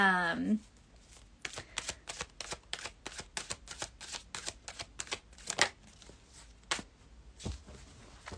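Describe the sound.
Oracle cards are shuffled by hand for a card pull, giving many quick, crisp papery slaps and riffles in an irregular rhythm. The shuffling is quiet, and a brief vocal sound comes just before it starts.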